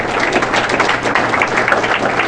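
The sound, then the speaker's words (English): A Rotary club audience applauds to welcome an ambassador giving a lecture. The clapping is dense and lively and holds a steady level. “I'd ask you all to please be generous in your applause and welcoming our lecture speaker, Ambassador Peter Taxo Jensen.”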